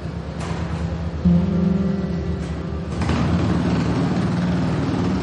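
A motorcycle engine rumbles steadily at a low pitch as the bike rolls out of a hangar. The sound swells louder about a second in and again a little later, staying dense and continuous throughout.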